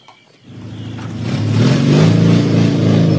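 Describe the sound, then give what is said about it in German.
A motorcycle with a sidecar revs up. Its engine note swells from a low idle into a loud, sustained roar that holds steady to the end, with no voices. “Gegen einen kleinen Obolus bekam ich das Motorrad mit Beiwagen für eine kleine Ausfahrt geliehen.”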